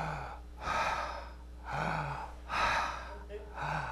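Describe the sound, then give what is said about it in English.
A person takes deep, audible breaths: a few long, airy inhales and exhales in a slow, even rhythm, with brief low voiced sounds between them. “you go and you take three deep breaths”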